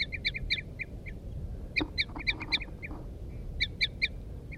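Wild female and male birds call back and forth in repeated toop notes, the female's loud and the male's soft, making many short, bright calls in quick clusters over a low rumble.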